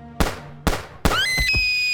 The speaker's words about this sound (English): He shot my sister! He shot my sister! From the darkness, a strange man shot Rosa